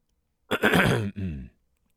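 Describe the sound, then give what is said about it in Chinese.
A student holding a pen clears his throat with two short voiced coughs, a longer rasping burst followed by a slightly softer one, then silence. “叶嘉诚拿着一支钢笔咳嗽两声问道”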